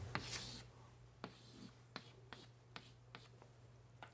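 A pen draws a box by hand, faint and close: one longer scratching stroke, then several short, evenly spaced strokes on paper.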